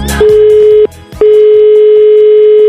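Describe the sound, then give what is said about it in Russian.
A telephone call being placed: a loud, steady, low ringback tone in two long bursts separated by a brief pause, with a burst of clicks right at the start. “Давайте ему позвоним прямо сейчас.”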